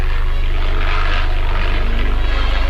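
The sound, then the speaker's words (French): An early Voisin biplane flies past with its propeller engine running, a loud, steady droning hum with a fast, even low pulsing throughout. “La brillante démonstration de Louis Pollan sur biplan voisin.”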